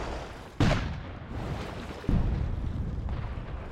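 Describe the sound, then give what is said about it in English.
Artillery fire from Confederate forts returning fire during a mortar bombardment: two heavy booms, each trailing off in a low rumble, sound over a quiet background. “Rather than leveling the forts, both continue to return fire.”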